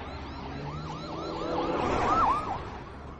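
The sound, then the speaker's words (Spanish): Police patrol car siren wailing as the car drives past: a repeated warbling up-and-down tone that swells louder to a peak, then begins to fade. “Un coche patrulla pasa de largo junto a ellos.”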